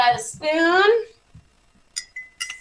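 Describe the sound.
A spoon clinks against a container while milk is stirred into a sweet mixture. A voice speaks first, then a few short, bright clinks follow.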